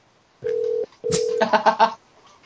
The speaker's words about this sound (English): I guess this phone is just going to keep on a ringing.